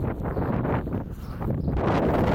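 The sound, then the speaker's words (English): Strong wind buffets the microphone in a loud, continuous rumbling roar that swells slightly toward the end. “That wind's terrible.”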